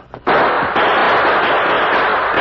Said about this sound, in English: We'll spring up and move apart at the same time, throwing shots around his feet.